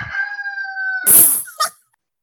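A rooster crowing: one long, steady, strident call, then a harsh noisy burst and a short squawk, followed by silence and a final brief sound.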